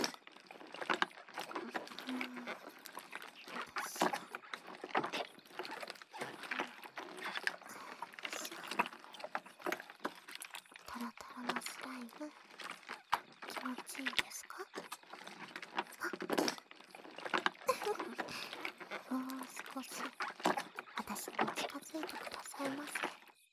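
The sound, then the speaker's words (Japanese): Slime is stirred continuously, making thick, wet squelching and popping sounds in a dense, uneven texture. Soft whispering runs alongside the stirring the whole time. “こうして、右耳でスライムをかき混ぜて、左耳に優しくささやき続けてやりますね。”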